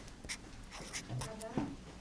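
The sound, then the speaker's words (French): A felt-tip marker squeaking and scratching as a word is written, a few short strokes, with people talking quietly underneath. “Alors vas-y, je te laisse prendre un feutre et écrire protection.”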